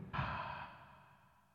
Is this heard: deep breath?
yes

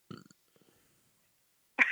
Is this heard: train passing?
no

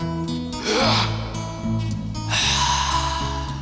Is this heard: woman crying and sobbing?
no

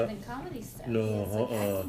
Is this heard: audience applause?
no

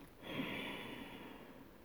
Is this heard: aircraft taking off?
no

